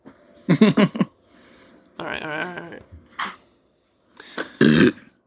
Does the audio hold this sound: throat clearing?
yes

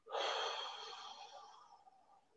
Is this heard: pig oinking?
no

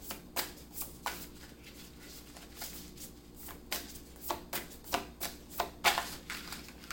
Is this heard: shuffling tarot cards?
yes

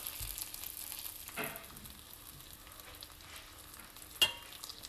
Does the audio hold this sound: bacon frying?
yes

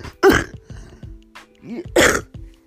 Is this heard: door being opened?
no

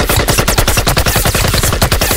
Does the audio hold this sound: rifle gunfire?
yes

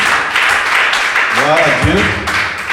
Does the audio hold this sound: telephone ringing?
no

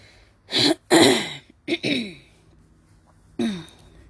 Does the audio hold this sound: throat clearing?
yes

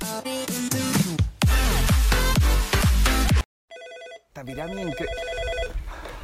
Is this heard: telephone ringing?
yes

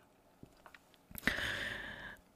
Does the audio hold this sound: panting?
no

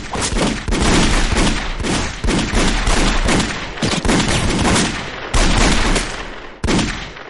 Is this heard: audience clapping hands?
no

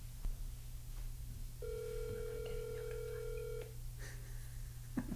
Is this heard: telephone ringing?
yes

